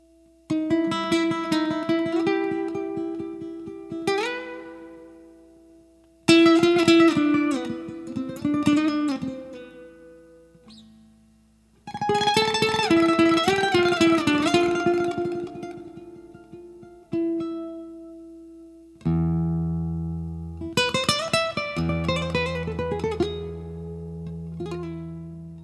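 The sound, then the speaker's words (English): Guitar playing an instrumental melody in several phrases separated by short pauses, with plucked single notes ringing over fuller chords, clear and moderately loud with no voices. “But back then, it was the sound of a friend playing the guitar on a beach.”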